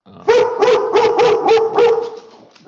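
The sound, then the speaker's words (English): A dog barks in a quick run of loud, sharp barks that come in steady succession, then trail off into softer yips. “Sorry about my dog.”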